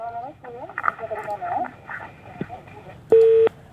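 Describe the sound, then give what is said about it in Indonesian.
Busy tone on a telephone line after a call-in caller is cut off: muffled, crackly phone voices talk over line noise, then one steady, loud, mid-pitched tone burst sounds alone near the end. “Baik, terputus sepertinya ya.”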